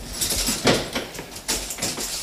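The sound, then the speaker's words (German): Sharp metallic clicks and rattles come from a prison cell door as it is unlocked. A few distinct clatters stand out over a few seconds, with no talk. “Dann schließt er eine der Zellen auf.”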